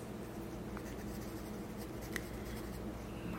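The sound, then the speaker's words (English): Pencil writing on paper, a soft, continuous dry scratching that runs steadily throughout at a faint, even level, with no voices. “Okay, we'll write that one down.”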